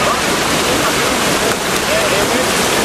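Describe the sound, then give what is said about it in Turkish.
Rushing water from a river overflowing after heavy rain in Karaçay, Samandağ, Hatay, heard as a loud, steady, dense roar that holds without a break through the whole stretch. “Aşırı yağışlar sonrası Samandağ ilçesi Karaçay mahallesindeki nehir hızla taştı.”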